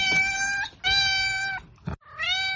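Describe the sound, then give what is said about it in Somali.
A cat meows three times in loud, drawn-out, tonal calls, the first two long and back to back and the third after a short pause. “waa bisad”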